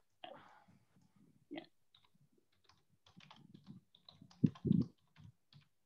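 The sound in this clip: Faint, irregular clicks of a computer keyboard being typed on to enter a search, with sparse taps, a short burst of louder keystrokes near the end, and quiet gaps between.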